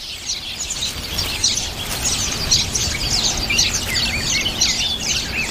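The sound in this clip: Many birds chirp and twitter without pause at a nest where black-faced grassquits feed their chicks. Busy, high-pitched calls overlap throughout over steady background noise.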